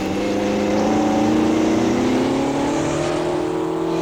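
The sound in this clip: Vehicle engine accelerating on snowy ground while following tracks in a chase: a steady, loud droning roar whose pitch climbs slowly and evenly throughout, with no talk over it.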